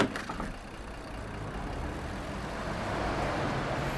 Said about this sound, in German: Autos. Vierspurige Straße, direkt Bushaltestelle unterm Fenster.